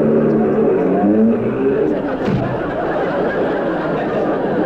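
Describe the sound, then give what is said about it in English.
A comedy sound effect of a car driving away, meant as a piano being driven out of a studio: a loud, tonal engine drone for about two seconds that gives way to a dense, steady wash of chatter and laughter. “Like that, he drove the piano right out of the studio.”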